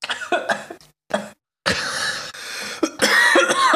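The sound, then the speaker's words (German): Harsh, loud coughing from someone who has choked on something, coming in several separate bursts of repeated coughs with short pauses between them. “Ah, ich habe mich so verschluckt.”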